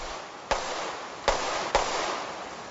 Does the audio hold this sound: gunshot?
yes

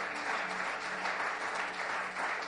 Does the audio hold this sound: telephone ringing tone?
no

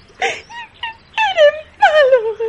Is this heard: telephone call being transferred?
no

